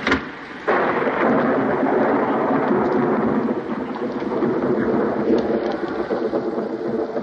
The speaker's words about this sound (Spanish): Amenaza tormenta.